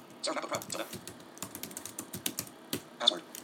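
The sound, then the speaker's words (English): Typing on a computer keyboard as a script is entered at a terminal: quiet, irregular bursts of light key clicks with short pauses, and one sharper tap near the end. “And I'm going to just type in a script here.”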